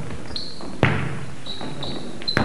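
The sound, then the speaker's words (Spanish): A basketball bounces twice, each a solid thump spaced well apart, over a low background with thin high tones. “Boto y boto mi pelota, la tiro y la encesto.”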